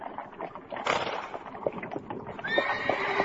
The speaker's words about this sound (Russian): Хозяин, лошади устали, едва переставляют ноги.